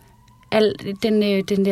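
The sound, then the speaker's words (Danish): A Danish ambulance siren sounds in steady two-tone blasts, alternating between held pitches a few times. It is loud and harmonic-rich, with short breaks between the tones. “den ambulancealarmen, eller sirenen på ambulancen her hjemme i Danmark, det var den alarm, der lød nede i vores lejr.”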